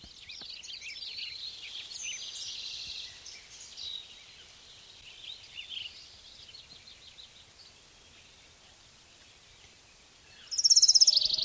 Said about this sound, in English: Orange crowned warbler number two.